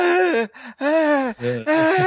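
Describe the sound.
A voice imitates an out-of-breath video game soldier after a bayonet charge: a few ragged, breathy groans and gasps with a strained, moaning pitch, separated by short pauses.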